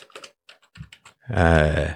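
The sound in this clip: Typing on a computer keyboard: a few quick, light clicks and taps in uneven bursts, followed by a person talking.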